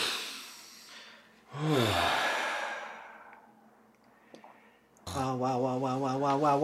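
Deep breathing in and out by a person, with a soft airy breath followed by a louder voiced sigh that falls in pitch, then a quieter stretch of breath noise.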